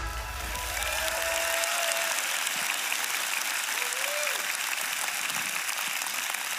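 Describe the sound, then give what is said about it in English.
A church audience applauds to welcome a pastor to the stage. Dense, sustained clapping builds in after a brief low tone and then carries on evenly, with a couple of faint tonal sounds over it. “So ladies and gentlemen, Summit Church, would you put your hands together and join me in welcoming Pastor Derek DeLane.”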